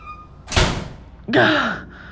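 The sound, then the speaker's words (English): A door being closed on a cramped, tight enclosure: a sharp, solid thunk, then after a brief pause a second, longer noise that cuts off abruptly. “Okay, close the door.”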